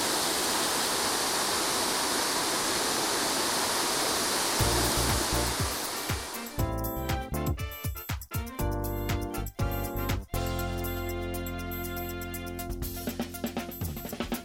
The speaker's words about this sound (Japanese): 水の落ちてくるスピードも速く感じますね、 うん、近づいた方が迫力のある時なんだなって分かる、 ね、 あの落差ね、 落差 133メートル、これはすごい